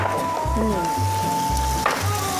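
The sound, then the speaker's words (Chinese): Onions sizzle as they are stir-fried for a pizza sauce before tomatoes go in, a steady frying hiss with a brief clatter near the end. “哎，炒开始了。哎、 这个洋葱炒出香味之后， 加入番茄。”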